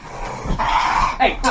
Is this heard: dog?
yes